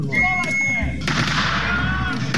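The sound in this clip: Gunfire booms at a military battle reenactment during a military picnic at an army museum that displays tanks and cannons. Voices come first, then one loud, heavy shot bursts out and its roar lingers for over a second.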